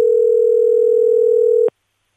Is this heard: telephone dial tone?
yes